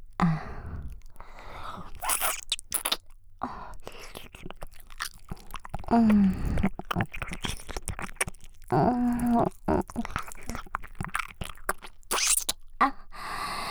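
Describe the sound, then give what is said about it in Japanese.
Light biting of an earlobe as ASMR mouth sounds: many soft, wet clicks and small crunchy nibbles in an irregular rhythm, quiet and close, with short pauses between clusters. “こんな風に耳たぶを軽く噛んで、”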